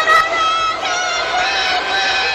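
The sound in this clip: Wrestling crowd booing at a 1990 match, a steady, loud wall of many voices jeering without pause.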